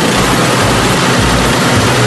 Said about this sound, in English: How about this new snow blower plus super fast ice melt for the sidewalks?